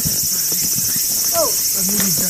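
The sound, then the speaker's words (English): Insects chirp in a cool mountain forest, a dense, continuous high-pitched buzzing drone that holds steady throughout, with a few soft lower sounds beneath. “At the top, we climb out into a cool, sweet-smelling forest. And a symphony of bugs.”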